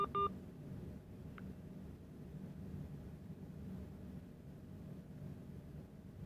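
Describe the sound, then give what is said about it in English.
A short telephone keypad tone sounds as the pound key is pressed to check voicemail: a brief beep at the start, then a fainter blip, over a quiet, steady low hum. “I'm going to check my my phone and see if there's any voicemail. Then press pound.”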